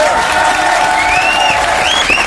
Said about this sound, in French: Ouais, ben n'applaudissez pas trop, ça reste des Genevois.